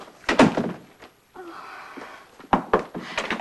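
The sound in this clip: A door being closed: a handful of dull knocks and thumps with a brief scraping stretch in between, fairly loud and heard alone.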